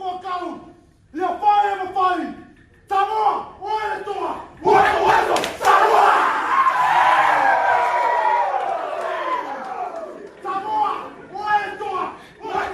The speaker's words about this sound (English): he taught the rookie class the Indigenous war dance. So they split up into two groups. They both do it against each other one at a time.